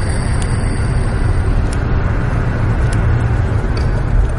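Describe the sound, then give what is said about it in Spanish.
Steady low road and engine rumble inside a car driving at night with a family aboard, an even, unbroken drone with a faint hiss on top and no clear voices. “Por la noche, Carlos va en el coche con sus padres y sus hermanos.”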